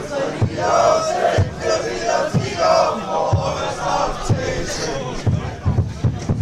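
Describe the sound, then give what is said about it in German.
AfC football fans in a stadium sing and chant to a steady bass drum beat of roughly one hit per second. The crowd noise is continuous and loud, with voices talking over it. “AfC-Fans. Die machen jetzt Musik AfC. Und trommeln, hörst du das?”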